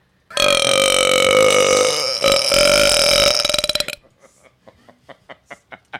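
A long, loud burp from someone who had been drinking Sprite: a croaking belch of about three and a half seconds with a brief dip midway, trailing off into a series of short, quieter pulses.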